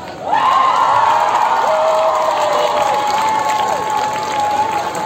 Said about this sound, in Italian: Grazie mille Mary, un altro applauso!